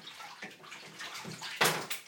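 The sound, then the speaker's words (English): Bathwater sloshing and pouring as a person is rinsed in a bathtub, with several soft splashy washes and one louder, brighter splash near the end. “Can I rinse him now? Yeah, give him another little scrub over and then rinse him and then I'll put some more water over him.”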